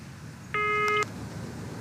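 A telephone call ringing unanswered: one steady electronic ring tone, about half a second long, rises clearly above a low background hum and then stops.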